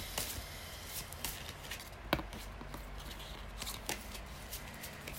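Soft, papery flicks and taps as tarot cards are shuffled and drawn from a pile. Many quick, faint rustles and clicks come in an uneven rhythm, with no talking.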